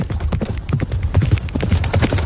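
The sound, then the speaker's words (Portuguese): Trotting horse hoofbeats played as a sound effect on a radio request: a loud, steady run of many quick, even clopping beats. “Luiz Rauber aqui pra pedir o tropé do cavalo e o relincho, ó. Daí tá o tropé.”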